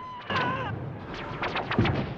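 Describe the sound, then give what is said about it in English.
Gunfire in a film scene lands as a few dull, booming shots and rumbling blasts in quick succession, rough and heavy rather than sharp. “Two of the elite are gunned down just behind him.”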